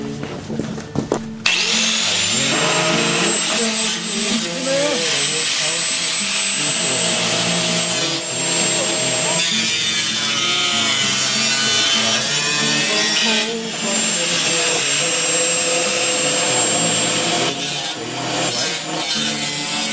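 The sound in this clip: A grinder cuts through material. After a short start it rises to a loud, continuous high-pitched whine over harsh grinding grit, and its load dips briefly a few times across the long steady cut.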